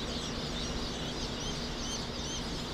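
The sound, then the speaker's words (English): Thousands of fuzzy, freshly hatched chicks peep at Cackle Hatchery in Lebanon, Missouri, a dense, unbroken chorus of high chirps over a steady wash of noise, with no talking. “The peeps of thousands of small, fuzzy, freshly hatched chicks drifts through Cackle Hatchery in Lebanon,”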